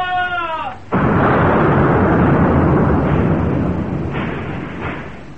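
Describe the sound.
Guns firing aboard a sailing warship: a sudden heavy blast that swells into a loud, sustained rumbling roar lasting several seconds, with a couple of further dull booms near the end.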